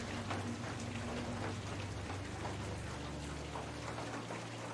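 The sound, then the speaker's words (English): Steady rain falling, a dense, even hiss of drops that holds at a constant level for the whole stretch, with no voices and no clear separate splashes. “Hey, at least there's rain. I won't go thirsty tonight.”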